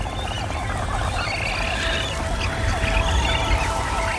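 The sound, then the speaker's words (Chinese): A hungry magnificent frigatebird chick begs for food with a continuous stream of rapid, scratchy chattering calls over a low background rumble. “这只饥饿的雏鸟持续不断的起食，吵醒了它毫无经验的妈妈。”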